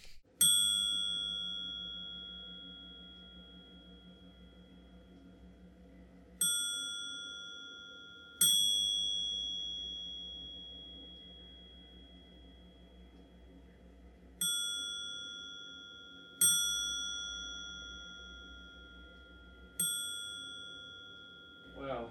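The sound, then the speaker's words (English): Little ringing dings from a programmed device with a broken pattern: six faint metallic chimes, each decaying slowly, spaced at uneven intervals over a low steady hum. “I broke the pattern somewhere, so it's just dinging. Just little dings.”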